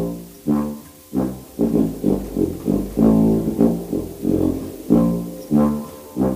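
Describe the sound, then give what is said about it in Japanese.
Tuba, the largest brass instrument, plays alone: a long series of deep, sustained low notes, each swelling at its start and fading into the next in a steady, lumbering rhythm. “金管楽器の最後は大きなチューバです。”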